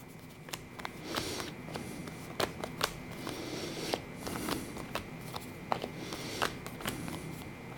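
Playing cards are shuffled and laid out for a card reading, with many sharp, irregular snapping clicks over a soft papery rustle throughout.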